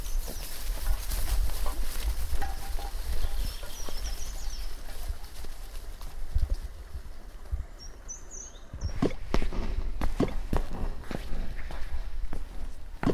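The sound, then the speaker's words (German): Quick running footsteps head toward a house, many light thuds under steady background noise, growing sharper and more distinct in the last few seconds. “Ich laufe schnell zum Haus und hole eine Taschenlampe.”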